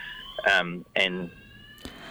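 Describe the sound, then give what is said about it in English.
A fire alarm going off sounds as a faint, steady, high electronic tone that runs throughout, partly masked by a person talking over it. “Oh, I think the fire alarm is going off in the”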